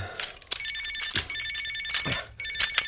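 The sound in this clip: A telephone rings in three trilling bursts, with a few soft clattering knocks between them.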